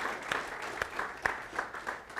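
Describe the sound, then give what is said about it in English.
An audience claps hands in praise during a church service. The claps are fairly faint and come in a loose, regular rhythm, with a few sharper claps standing out. “Give the Lord a hand clap of praise in this house.”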